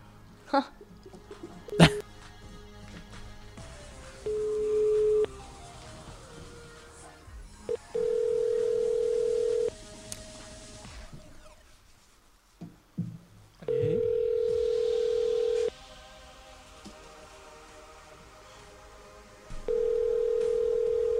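Ringback tones on a telephone call placed to a contestant in a prize draw: several steady, mid-pitched beeps of about two seconds each, separated by longer pauses and heard over a busy background.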